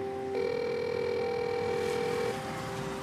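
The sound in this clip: A door intercom phone at an apartment building entrance rings with one steady electronic buzzing tone that lasts about two seconds over a low background hum, then cuts off.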